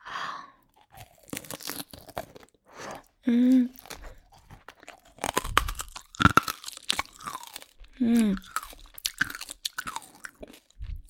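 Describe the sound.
Crunching and chewing of candied hawthorn skewers: many sharp, crisp bites and brittle crackles in uneven bursts, with short voiced hums in between.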